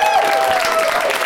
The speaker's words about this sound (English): featuring one more time, a round of applause